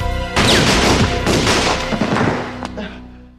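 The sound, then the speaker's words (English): Gunfire in a drama scene, a man shooting and then being shot by police: a dense, loud burst of many sharp, booming shots that thins out into a final distinct crack before fading. “So that was Paul shooting and then getting shot by cops.”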